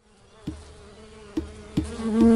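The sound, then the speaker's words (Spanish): Steady buzzing of bees in the Yucatán peninsula, a continuous droning hum broken by a few brief louder bumps and swelling slightly toward the end. “El insecto de nuestras vidas, Uyik'elop ekkuxtal. En la cultura maya, las abejas no son solo insectos, son parte de la vida,”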